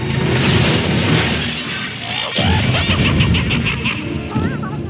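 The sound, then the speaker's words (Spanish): A station wagon crashing into a shop window, with loud, dense glass shattering and smashing that continues throughout, a sharp heavy impact midway, and scattered tinkling debris afterward. “El coche choca con una ranchera y vuelca. La ranchera se estrella en un escaparate.”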